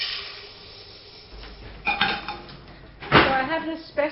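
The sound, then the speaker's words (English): Utensils and dishes clink while sugar is measured for baking in a chef's kitchen, giving a few sharp metallic clinks and scrapes over a low steady background. “Okay, so I'm measuring some sugar.”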